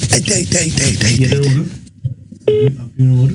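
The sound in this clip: Phone call being placed: a voice is heard at first, then two short, even ringing tones sound with a brief gap between them.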